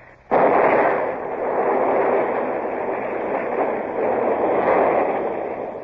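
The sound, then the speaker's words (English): A gunpowder magazine explodes at a coastal gun battery: a sudden loud blast gives way to a sustained, heavy roaring rumble that stays strong to the end. “They've blown the magazine, sir. That's the end of the battery at Lanza.”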